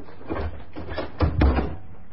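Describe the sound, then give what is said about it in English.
A bedroom door being closed: two short thudding knocks in the middle, over a low, rumbling background with brief shuffling bursts. “close the bedroom door”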